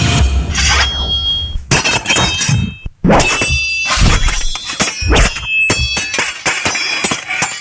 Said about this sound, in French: je dirais que c'est un son d'épée. Ben oui, ce sont des épées